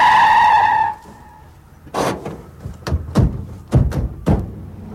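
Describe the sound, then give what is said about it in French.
Tyres squeal loudly for about a second as a car skids, the shrill tone cutting off abruptly, followed by a few sharp, irregular bangs and knocks. “Attention, une voiture. Formidable, on est sauvés, Sergino.”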